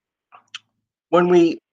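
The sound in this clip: A computer mouse clicks twice, two short faint taps close together while clicking through a slide deck, followed after a pause by a brief voiced sound.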